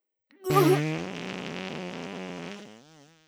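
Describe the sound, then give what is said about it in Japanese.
A fart: a long, loud, buzzy blast that starts abruptly, holds a steady rasping tone for a couple of seconds with slight wavering pitch, then trails off. “いや、屁が漏れてしまいました。ごめんなさい、いつにも増して臭いおならです。”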